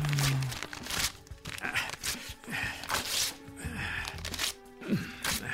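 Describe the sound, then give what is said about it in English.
Papers are torn up and crumpled to destroy them: repeated ripping and crinkling bursts that come irregularly for several seconds. “They know I destroyed papers. You, they don't have a clue. Yet. So tear like you're me.”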